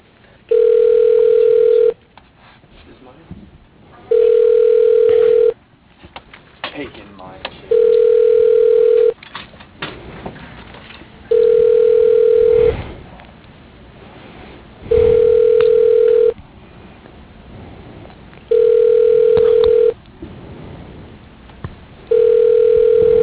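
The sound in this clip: A telephone call's ringing tone sounds as about seven steady, mid-pitched beeps, each lasting roughly a second and a half, separated by pauses, with faint background noise between them and the last beep cut off.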